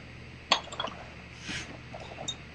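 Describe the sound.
Glow worm colour is stirred into melted plastic bait mix: one sharp clink, then a few lighter taps and a soft swirling scrape, all fairly faint.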